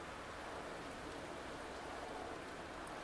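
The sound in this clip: A light rain shower falls after a storm, a faint, even hiss of drops that stays constant throughout.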